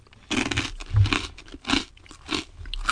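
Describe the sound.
Crunchy biting and chewing of a snack with a hard outer skin: a few loud crunching bursts in an uneven rhythm, each one crisp and grainy.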